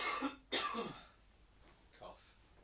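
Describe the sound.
A single quiet, harsh cough bursts out with a throaty, voiced tail, like someone clearing their throat. Faint murmuring follows.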